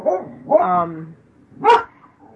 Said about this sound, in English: Excuse my dog.